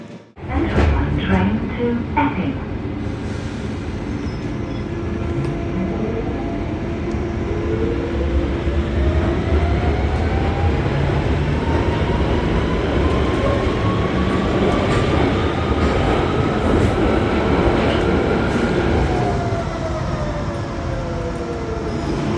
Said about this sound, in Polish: Czeka nas teraz po prostu przejażdżka metrem